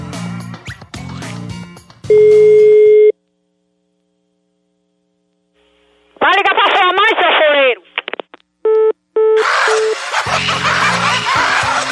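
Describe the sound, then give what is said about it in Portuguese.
A phone call rings out: a steady low beep lasting about a second, then a silent pause, followed by warbling electronic tones and a couple of short beeps. Voices talk and laugh at the start and end. “Vamos ligar de novo aqui.”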